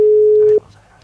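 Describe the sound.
A steady telephone line tone holds for about half a second as a radio contest listener is being called, then cuts off abruptly, leaving only a faint low hum.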